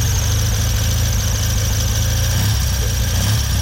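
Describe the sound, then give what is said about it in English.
A restored 1956 Triumph TRW 500 military motorcycle, still on its original engine, idles with a loud, steady, throbbing low rumble that holds a constant level throughout, with no voices. “500 Triumph, TRW, 16,000 were made for the armed forces. This one went to Canada in 1956 in a crate with a spare engine. I still got its original engine,”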